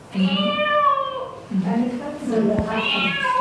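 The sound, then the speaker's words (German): A cat meows twice during an animal-sound guessing game: two long, drawn-out cries with rich harmonics, separated by a brief pause, the second slightly longer and rising at its end. “Eine Katze.”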